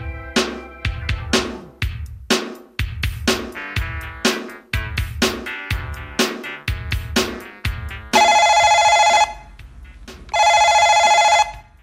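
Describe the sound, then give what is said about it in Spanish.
A telephone rings twice near the end, each ring a loud, steady electronic trill of about a second, following a run of rhythmic, punchy musical hits. “¿Quién estará llamando hasta ahora?”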